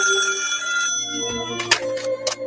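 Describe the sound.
A telephone ringing in a 1987 Cantonese-dubbed cartoon: a steady, bright, harmonic ring for about a second, then it cuts off and a few short clicks and knocks follow.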